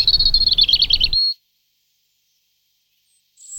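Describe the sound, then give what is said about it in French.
A European robin sings a brief, high, rapidly warbling phrase lasting just over a second, followed by silence, with the next phrase only just beginning at the very end. “Son chant est assez lent. Il est composé de plusieurs strophes courtes, mélancoliques, de quelques secondes, avec des silences. Entre le printemps et l'hiver, ce ne sont pas les mêmes rouges-gorges qui viennent chanter dans nos parcs et jardins”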